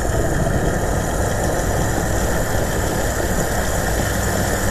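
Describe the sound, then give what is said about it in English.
Gasoline rushes into a car's fuel tank at a gas station: a steady, even whoosh with a low rumble underneath that holds unbroken for the whole stretch, with no voices over it. “Gas flowing into the tank. It is gas flowing into the tank”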